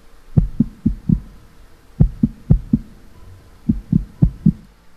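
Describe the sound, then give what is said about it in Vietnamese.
Fast heartbeat: low, thudding pulses arrive in quick clusters of about four, separated by brief pauses. “Nhịp tim đập rất nhanh.”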